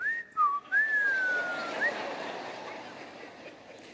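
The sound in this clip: A whistled imitation of a train whistle: a thin, fairly high tone that dips, climbs back and then slides slowly down over about two seconds. A short upward flick follows before it fades into faint hiss.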